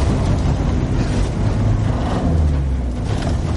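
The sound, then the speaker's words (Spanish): A car reverses with its rear doors open as a father backs it up, giving a steady low engine rumble with a broad, even noise that holds unchanged throughout. “Ella se sube, las puertas traseras están abiertas. El padre conduce marcha atrás.”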